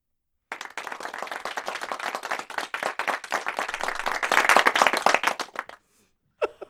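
A studio audience bursts into applause after a poem reading. The crisp clapping starts abruptly, swells toward the end and then stops, leaving a short silence and one brief final sound.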